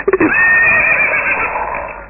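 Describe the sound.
A horse whinnies: a few short, sputtering snorts, then one long, loud, high-pitched neigh that holds steady and slowly trails off.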